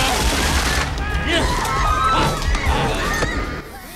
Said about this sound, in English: One of the vampire hunters opens up on the master with a machine gun, but he ignores the bullets as if they were peas.